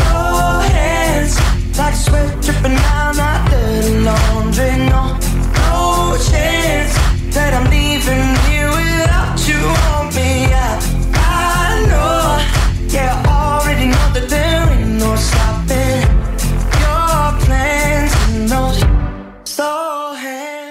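A pop song with vocals plays loudly and continuously over a steady beat and deep bass, then cuts off abruptly near the end.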